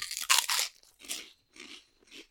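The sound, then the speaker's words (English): Crunching puffy, thick bacon-flavoured crisps: a loud crisp bite, then a few softer crunchy chews separated by brief silences. “I'm going to taste them. Oh, they're very puffy. They're like big, thick quavers.”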